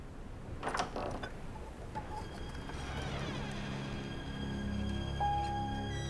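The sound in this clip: A bedroom door cautiously pushed open in an audio drama: a few sharp latch clicks, then a slow, drawn-out creak with squeaky tones as the door swings, fairly quiet throughout.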